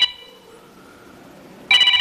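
A telephone rings for an incoming call on a radio phone-in. A brief electronic trill at the start is followed by a quiet stretch, then a second loud ring near the end.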